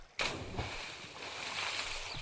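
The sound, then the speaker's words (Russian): A splash sounds as someone dives into the water close to a swimmer. The sudden loud burst gives way to sustained sloshing and rushing water. “Резко вырвав меня из состояния блаженной безмятежности, совсем близко раздался шлепок.”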